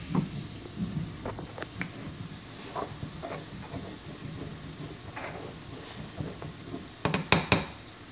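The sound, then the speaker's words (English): Fennel sausage sizzling in a pan as it is stirred: a steady frying hiss under scattered clinks and scrapes of a utensil against the pan, with a cluster of sharper clatters near the end. “I don't know if the fennel is a great idea, but better stir my sausage.”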